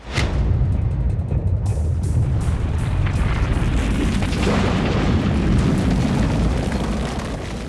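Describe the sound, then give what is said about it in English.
Deep, continuous rumbling of the ground shaking as stone walls crack, loud and sustained throughout, with a sharp burst at the start and a slight fade at the end. “Suddenly, the ground beneath them began to shake. The tops of the stone walls cracked.”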